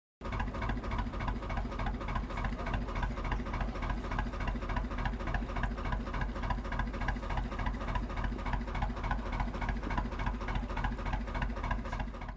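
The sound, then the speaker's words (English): Boats putter along a canal in London, their engines giving a steady, dense, rhythmic chugging that runs unbroken and fairly loud for the whole stretch, with no voices. “That's the sound of boats puttering along the Regent's Canal.”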